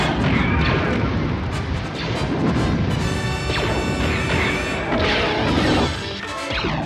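Sci-fi blaster shots and crashing impacts form a dense, loud barrage of sharp zaps and smashes that rattle on without pause for the whole stretch.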